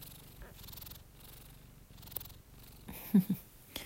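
A cat purrs steadily indoors, a low, rhythmic rumble that swells and eases with each breath through repeated cycles. Near the end come a couple of brief, louder sounds.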